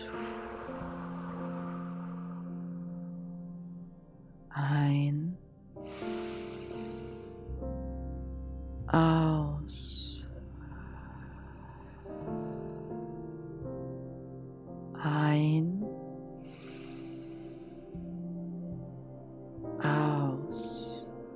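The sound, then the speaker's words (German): Deep breaths drawn in and let out during a guided relaxation exercise: several soft, airy hissing bursts rise and fade at intervals over a steady, sustained musical drone. “drei tiefe Atemzüge nehmen. Atme ein. Aus.”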